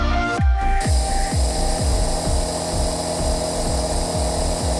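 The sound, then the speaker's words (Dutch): A hospital ventilator breathing machine in Mannheim, Germany, runs with a steady mechanical hum overlaid by regular low thumping pulses about twice per second, loud and monotonous, after a brief high hiss at the start. “Zij lag in het ziekenhuis naast een vrouw die aan de beademing lag. Maar dat apparaat maakt dus zo'n soort geluid.”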